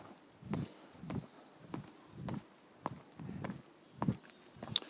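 Footsteps climbing a long flight of steps: a steady, evenly spaced series of soft footfalls, each a short thud, continuing without a break.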